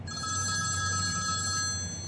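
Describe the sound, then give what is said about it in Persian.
A mobile phone rings with an incoming call, its ringtone a steady electronic tone that holds without a break over a low hum, with no voices. “روز بعد کسرا خوابه که قوامی زنگ زده با پیش شماره 2046. کسرا روی تخت غلطی میزنه و گوشی تلفن همراهشو برمی‌داره.”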